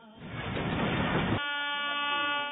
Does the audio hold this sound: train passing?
yes